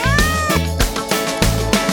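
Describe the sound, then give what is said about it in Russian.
A cat meows a few times within a children's song about a cat, the cries riding over a steady, loud musical backing. “Но знает кошка слов немножко только мяу.”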